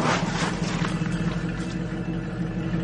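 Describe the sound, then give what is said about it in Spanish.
Low, steady engine rumble of a car pulling up at the roadside at dusk beside an oil field, a continuous drone with no voices. “Anochece. Elma detiene el coche al borde de la carretera.”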